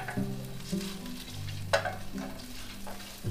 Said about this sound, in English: Now I put the garlic, I want to cook the tomato. Okay, now we saute the garlic a little bit.